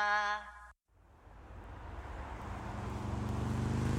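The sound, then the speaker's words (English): A motorcycle riding toward the listener as they wait to turn left: after a brief burst of music and a moment of silence, the engine's drone rises and grows steadily louder to the end. “That's a motorcyclist. It's riding towards you as you're about to turn left.”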